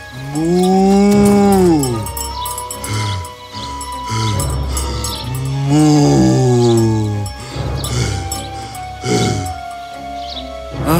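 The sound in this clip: A bull working in a field lets out several long, drawn-out moos, loud and deep, with short pauses between the calls.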